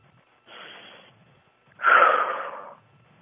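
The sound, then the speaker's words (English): A deep breath as two breathy rushes of air: a soft, airy one, then after a short pause a longer, louder one. “Take a deep breath.”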